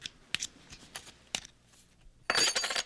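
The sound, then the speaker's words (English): A knife prying the back cover off a small geared mechanism: a few sharp metallic clicks and taps, then a louder rattling, scraping burst near the end, fairly quiet and without talk. “It looks like the back would come off. If I just put my knife right along the crack and pry a little.”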